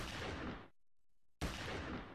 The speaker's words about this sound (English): Give it a gunshot.